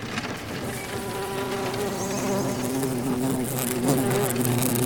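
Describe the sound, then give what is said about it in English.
Huge bugs buzz loudly in a continuous droning hum with steady tonal layers, holding an even level from start to finish with no voices. “Those bugs are huge! They can't fit through these bars.”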